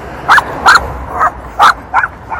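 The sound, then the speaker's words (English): A dog barks six times in sharp, loud bursts at a fairly steady pace, with no voices over them. “There's a dog.”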